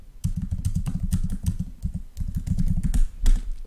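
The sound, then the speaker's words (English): Rapid clicking of a computer keyboard as a web search is typed, a fast run of keystrokes with a short pause midway, ending in a few heavier presses. “I just typed in how to end a podcast episode.”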